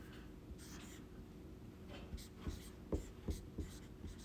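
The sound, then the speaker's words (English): Writing on a board during a Bible study class, a faint series of short scratchy strokes that grow more distinct and closely spaced toward the end. “If I write this small enough, then you can't see it.”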